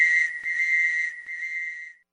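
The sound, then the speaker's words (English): A whistle is blown in a shrill, steady tone that wavers slightly and has brief dips in brightness. It lasts about two seconds and cuts off cleanly. “Blow my whistle, baby. Blow my whistle, baby.”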